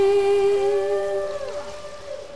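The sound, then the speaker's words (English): Humpback whale song from a 1970 record: a steady, moaning tone with stacked harmonics, then several tones that glide downward in pitch and settle lower, with no voices. “The record went gold, and it introduced millions to the songs of the humpback whales.”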